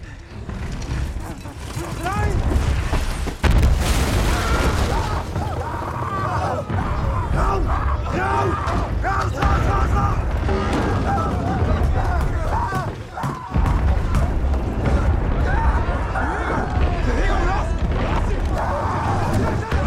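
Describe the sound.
Artillery from a creeping barrage in a First World War film battle scene, with soldiers sheltering in a trench: a dense, continuous roar broken by many heavy thuds and crashes, loud throughout, with voices mixed in.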